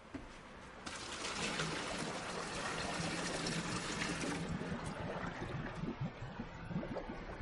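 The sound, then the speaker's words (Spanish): Water is poured off spaghetti from a pot, a quiet steady rush of liquid that swells after a soft start and then breaks into light splashing and trickling toward the end, with no talk. “Coge la olla y escurre los espaguetis.”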